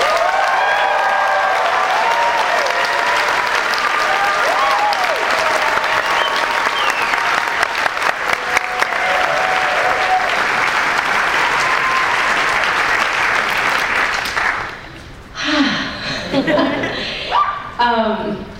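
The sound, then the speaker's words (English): A conference crowd applauds and cheers loudly in a steady, dense wash of clapping with some vocal whoops. It fades after about fourteen seconds, and a single voice then begins speaking. “make some noise for Rosana”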